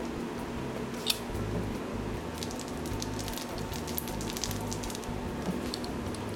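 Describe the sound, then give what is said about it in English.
A tool presses holes into wax honeycomb during honey harvesting, giving faint, scattered crackles and sticky pops over a low steady hum. “How hard are you pressing? Not very hard. I don't want to crush the honeycomb.”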